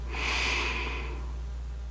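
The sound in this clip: A slow breath drawn in during a guided relaxation exercise: a soft, airy hiss that swells and fades over about a second, heard alone over a faint steady hum.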